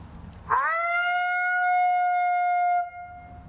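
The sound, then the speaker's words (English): A voice imitates a lonesome female howl, soft and high-pitched: one long howl that swoops up quickly, then holds a steady, clear tone for about two seconds before stopping abruptly. “and then I'll maybe go into just a lonesome howl. I can do maybe a female lonesome, so it's a little softer, a little higher pitch”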